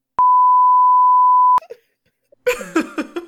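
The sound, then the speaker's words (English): A single long, steady electronic beep holds at one fixed mid pitch for over a second and cuts off cleanly. After a short pause, a voice follows. “I know you're beeping”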